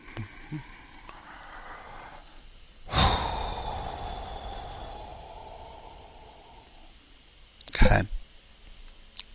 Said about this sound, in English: So here's where I'm headed to a really slow breath.